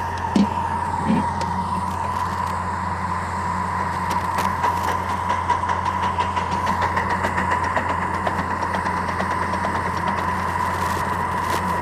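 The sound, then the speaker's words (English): An air compressor runs on a steam locomotive coasting downgrade, muffled to a low, steady rumble that hums on continuously with little change in level. “You might hear that little rumbling in the background. It's the air compressor running. I got it muffled pretty decent now.”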